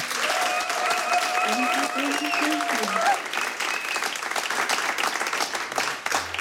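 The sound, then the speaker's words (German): Studio audience applause for a band playing live in a radio studio in Berlin: steady, dense clapping throughout, with a brief voice and a steady tone heard over the first half. “Nochmal einen dicken Applaus”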